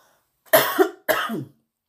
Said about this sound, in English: Now I got a tickle in my throat.